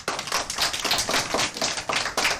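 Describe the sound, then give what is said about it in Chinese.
Classroom applause from students, many hands clapping together in a steady, even rhythm of sharp, fairly loud beats that carry through the whole clip. “就是这些，很好，掌声。”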